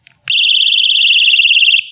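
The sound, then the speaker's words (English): A tripwire perimeter alarm for a camp or home sounding off. After a faint click, a loud, piercing, high-pitched continuous tone starts sharply, holds steady for about one and a half seconds, then stops. “when they hit the tripwire, it not only is it going to sound off the alarm,”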